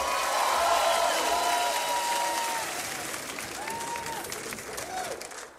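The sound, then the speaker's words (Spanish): An audience applauds the musicians, with dense, loud clapping and crowd noise that eases slightly partway through and then continues steadily to the end. “¡Aplauso tremendo para los músicos, loco!”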